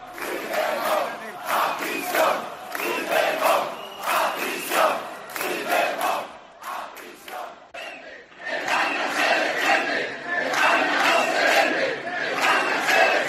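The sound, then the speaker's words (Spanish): Protest crowd in Seville chanting against the amnesty and Pedro Sánchez, loud rhythmic shouted bursts that dip briefly near the middle before rising again at full strength. “Y es que numerosos sevillanos, unos 1.600 según la policía, se han concentrado como en otras ciudades españolas en contra de la amnistía y de Pedro Sánchez.”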